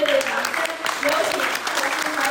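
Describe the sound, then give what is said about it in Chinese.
Audience applause as a Buddhist lecturer appears before listeners at a talk event: steady, sustained clapping with no break, and a voice mixed in underneath. “国际佛会坛讲师赵孤怀真在热烈掌声中现身”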